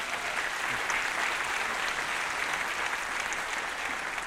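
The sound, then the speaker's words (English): A church audience applauds to welcome a guest speaker, a constitutional expert: dense, steady clapping that stays even and continuous across the whole stretch. “Let's give him a round.”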